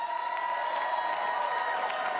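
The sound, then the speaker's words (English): Comedy club audience applause, a continuous, even wash of clapping mixed with crowd cheering that holds steady throughout. “Give some round of applause”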